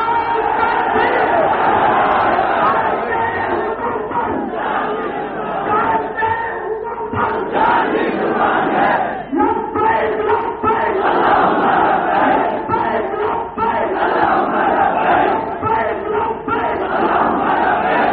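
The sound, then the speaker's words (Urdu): An audience at a speech loudly chants slogans, a dense, continuous mass of shouting voices that stays at a steady, forceful level throughout. “وہ بلند آواز سے نعرہ بھی لگائیں اور کھڑے ہو کر وعدہ کریں۔”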